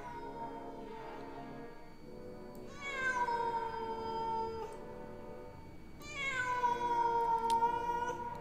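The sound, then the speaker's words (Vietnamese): A cat meows plaintively outside on a balcony: two long, drawn-out cries, each opening with a high tonal sweep and then holding steady, over a continuous background tone. “Tiếng con mèo vẫn kêu lên, nghe đến não ruột, ở bên ngoài kia.”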